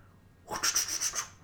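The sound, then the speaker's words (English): Rustling of paper as someone flips through a paper pamphlet left on a hotel concierge desk, a few soft crinkly swishes and rubs in quick succession after a brief near-silence. “That's the sound of me going through the pamphlet that's left on my concierge desk there of”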